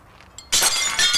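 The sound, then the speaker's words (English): Glass shattering as a piece is thrown onto the ground beside a glasshouse: after a quiet start, one sudden bright crash bursts out and spreads into a dense, loud spray of tinkling fragments that lasts to the end. “Edgar throws a piece of glass onto the ground”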